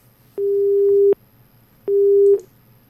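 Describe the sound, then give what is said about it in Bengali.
A telephone busy signal after a call is cut off: two steady mid-pitched beeps, each lasting under a second, separated by a short gap of silence, clear and alone. “আপনি কেটে দিলেন ফোনটা, আবার চেষ্টা করবেন।”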